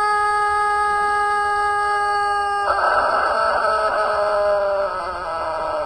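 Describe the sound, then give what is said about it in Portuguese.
A rooster crows in one long, drawn-out call: a steady, evenly pitched harmonic tone breaks about halfway into a rougher, wavering section, then fades near the end. The crow is loud and heard alone, with no voices. “Olha, bom dia, ô Galo Papudo. Esse é o Papudo Velho, do Papudo Acilo Severo. Olha a bicharada aí.”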